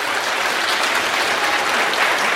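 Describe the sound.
An audience applauds to welcome the speakers at a science lecture. The clapping is dense and continuous at a steady, loud level throughout.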